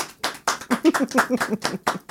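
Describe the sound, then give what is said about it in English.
A few people clapping in a loose, uneven rhythm, many sharp claps in quick succession, with a voice briefly heard among them. “Bobby, I guess you're unimpressed without the clap. Bobby. Thank you. I'm we sorry. We all clap for his ass.”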